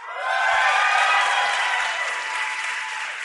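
A studio audience applauds and cheers, the hiss of clapping swelling quickly in the first half second, then holding loud and steady to the end.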